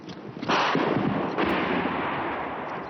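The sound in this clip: Gunfire in the trenches during a spring offensive by advancing Muslim-dominated Bosnian army troops near Tuzla. A heavy blast sets off a loud rolling rumble, a second burst follows about a second later, and the din slowly fades.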